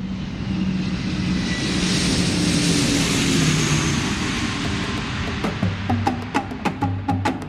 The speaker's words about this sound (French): Le 1er août 1972, le DC-8 atterrit à l'aéroport d'Alger.